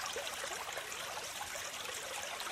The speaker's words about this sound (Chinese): 听着小溪的流水声，伴随着鸟儿 在枝头的鸣叫